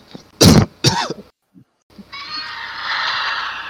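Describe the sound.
A man clears his throat and coughs in two loud, harsh bursts close together, then falls briefly quiet.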